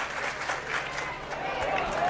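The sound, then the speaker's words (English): A large stadium crowd at a baseball game sends up a continuous, fairly soft roar of cheering that swells slightly toward the end. “This crowd is fantastic. Not just large, but locked in.”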